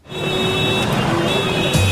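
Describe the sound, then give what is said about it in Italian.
Taxi engine running: a steady, even motor hum with faint tonal whine, holding at constant loudness throughout. “Sto parlando ovviamente del taxi, la linfa vitale della gente in movimento in tutte le città del mondo.”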